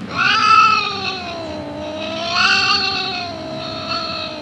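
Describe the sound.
A cat meows while being stroked on its tail, making a few long, drawn-out, wavering cries that swell and fade, loud and alone without talk.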